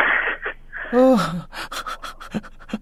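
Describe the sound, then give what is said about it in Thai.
Heavy panting: quick, hard breaths in and out that repeat in uneven bursts, fairly loud and close. “น้องหายใจตลอดเวลาแล้วน้องแบบหายใจเข้าหายใจออกแรงๆตลอดเวลา”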